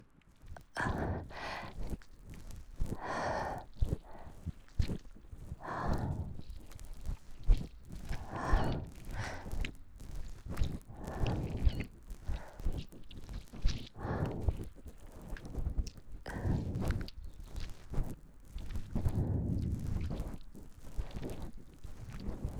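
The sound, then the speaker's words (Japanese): Soft scraping strokes of a cotton swab rubbed inside the right ear during an ear massage. Many rhythmic rubbing passes repeat at an unhurried, uneven pace across the whole stretch, with no talking. “綿棒をこすりつけて耳の中をマッサージですよ。”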